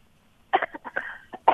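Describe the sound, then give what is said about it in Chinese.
Coughing from someone with a cold: a cluster of short, rough coughs and throat-clearing bursts in quick, uneven succession, loud against an otherwise quiet background. “哎呀，有点感冒咳嗽了”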